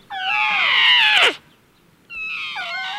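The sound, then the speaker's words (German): A young elephant trumpets a high, reedy, harmonic call that drops in pitch at its end. After a short silence, a second, briefer call follows. No voices are heard. “Ach, hört ihr das an? Der Elefant, der flötet auch.”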